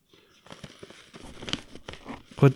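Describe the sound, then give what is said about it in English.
Gift wrap paper is crumpled and cleared away in irregular crackling rustles and crinkles, ending with a louder crunch. “Hold on. I got to clear out all this gift wrap that I have around.”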